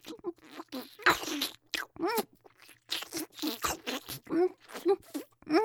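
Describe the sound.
Crunchy food being chewed in a run of crisp, irregular crunches, mixed with soft voiced murmurs and mouth sounds.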